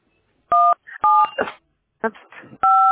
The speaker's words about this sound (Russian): Вы нажимаете на кнопки и пропадаете.